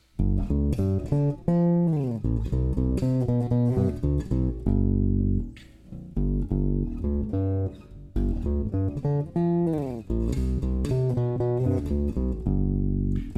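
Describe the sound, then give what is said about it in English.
Electric jazz bass playing a bass line, plucked with the right hand over the neck near the 16th fret. Deep, round, harmonically thick notes form a repeating riff with brief pauses between phrases. No voices. “and now I've got my right hand over the actual neck, approximately around the 16th fret on a jazz bass. So then you get a sound like this.”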